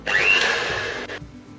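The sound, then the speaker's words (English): A motorized whir as cake batter of yogurt, milk and flour is beaten: a steady, fairly loud drone that cuts off abruptly partway through, leaving a faint low hum. “Now I am going to add in rest of the yogurt, the milk and the flour. Beat this well.”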